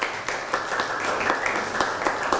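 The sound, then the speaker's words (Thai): Students clap for a classmate group after its turn in class, a steady patter of many hands with crisp individual claps poking through, holding a fairly even level for the whole stretch. “พระบรมธาตุชัยยาเอาปรบมือให้เพื่อนหน่อยครับ”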